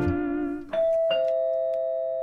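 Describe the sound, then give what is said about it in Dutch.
A doorbell rings with a two-tone chime, a lower note followed by a brighter, higher note that lingers and slowly fades. “Daar gaat de bel, wie zou dat zijn?”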